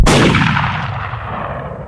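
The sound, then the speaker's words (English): A single gunshot from a Colt pistol discharging as it tumbles over paving stones: one sharp, loud crack with a long, slowly fading tail. “the Colt discharging a single shot as it tumbled over the paving stones”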